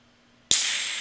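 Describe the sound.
Beverage can cracked open: near silence with a faint low hum, then a sharp snap of the tab followed at once by a strong, steady fizzing hiss that fades only slightly.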